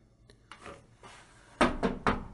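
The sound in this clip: Knocking on the wooden door of a small pavilion: a few faint taps, then three louder, sharper knocks close together near the end, over a quiet background.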